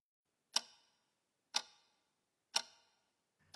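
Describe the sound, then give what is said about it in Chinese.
Wall clock ticking in a small specialty shop: four sharp, crisp ticks spaced evenly about a second apart, faint and alone against silence. “特产店的墙上时钟滴滴答答地响着”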